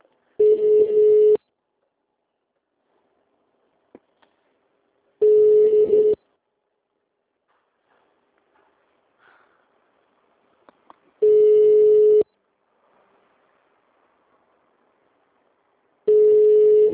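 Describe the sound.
An unanswered telephone call rings out as four steady, identical ringing tones, each about a second long, separated by long silent gaps.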